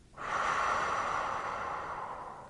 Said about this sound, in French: Inspirez doucement par le nez et expirez lentement par la bouche.